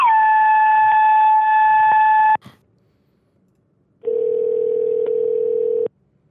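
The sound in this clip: Telephone tones as a call goes through to voicemail: a long steady tone with bright overtones, a short silence, then a second, lower steady tone of a couple of seconds. No voices are heard.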